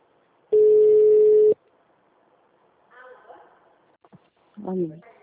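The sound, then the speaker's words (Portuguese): A telephone call tone sounds as one steady, unbroken beep lasting about a second. After a pause, faint voices speak briefly on the line. “ligando.”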